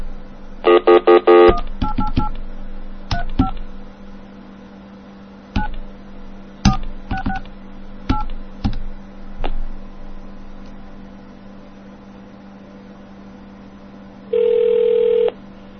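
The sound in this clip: Telephone number dialed on a phone line: a rapid burst of touch-tone beeps, then scattered clicks and short tones, and near the end one sustained ringing tone. No voices.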